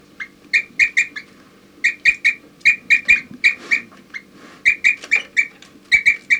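Short, clear whistled toop notes from a group of birds, delivered in quick bursts of several notes separated by brief pauses, with occasional higher chirps in between.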